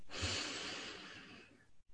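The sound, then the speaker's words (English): A slow, deep breath in during a guided meditation: one soft, airy inhale that lasts well over a second, then trails off into a short silence. “Taking a slow, deep breath in,”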